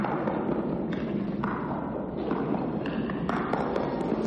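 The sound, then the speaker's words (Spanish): A pelota ball strikes the wall of a frontón court at a steady pace, a run of dull thuds repeating in a regular rhythm over constant background noise. “La pelota sigue golpeando a buen ritmo en la pared del frontón.”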